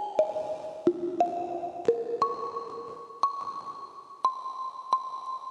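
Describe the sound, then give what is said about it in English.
Plucky synth notes pass through a reverb effect with its size parameter turned up, sounding as a slow series of bright, bell-like pings, each leaving a long shimmering tail that blends into the next. “But I want to go through some of the parameters to show you how we can make this reverb fit this sound. So let's start with the first parameter, size. Let's turn that size up.”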